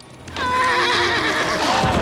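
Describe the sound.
Horses whinny loudly in a long, wavering neigh after a quiet start, with hoof clatter beneath, as spooked horses throw their riders.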